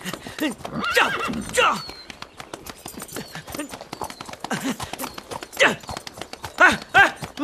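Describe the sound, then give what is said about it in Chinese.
Horse neighing, with a few shrill whinnies rising and falling over a steady clip-clop of hooves while the animal is ridden. “马儿啊，你说别人骑你怎么那么舒服，我骑你怎么就那么累呢？”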